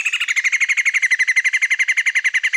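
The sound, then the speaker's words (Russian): Little grebe calling loudly: a long, rapid trill of many sharp, high notes repeated at an even, fast rhythm, steady in pitch and loudness throughout, with no voices. “малая поганка прям орёт. Я даже не могу это изобразить.”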